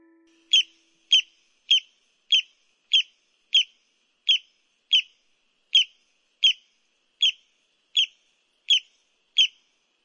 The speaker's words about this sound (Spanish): Sí, es el sonido de un pajarito que vive en la República Dominicana y se llama el barrancolí.